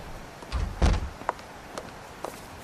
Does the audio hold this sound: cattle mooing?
no